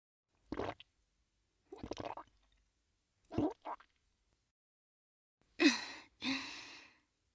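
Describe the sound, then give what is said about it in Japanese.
A woman gulps down a drink in three separate swallows, followed by two louder breathy exhales. “母、飲みます。”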